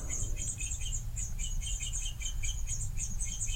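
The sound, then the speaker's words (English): Baby bird chicks chirp in their nest while being fed, a busy, continuous stream of thin, high-pitched peeps repeating over a steady low rumbling hum. “I get to hear my chicks. I hear the chicks, yeah.”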